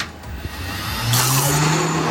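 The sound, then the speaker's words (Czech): An ice cream machine motor switches on to churn blueberry sorbet made from sugar, water and a little lemon. A quiet opening gives way to a loud, steady whirring hum about halfway through, with no voices. “vypadá to, že se bude míchat, tak můžete zapnout stroj.”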